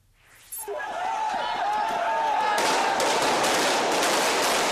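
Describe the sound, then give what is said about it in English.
Gunfire from soldiers shooting at anti-government protesters in Bangkok: a dense, continuous crackling din that swells over the first second, then holds loud and unbroken without distinct separate shots. “That was the sound of gunfire heard in Bangkok earlier today. Soldiers fired shots at anti-government protesters who threw back gasoline bombs.”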